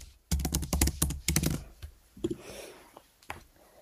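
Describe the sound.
Computer keyboard typing as notes are written: a rapid burst of many crisp keystrokes, then a few scattered, softer taps afterward, with no talking.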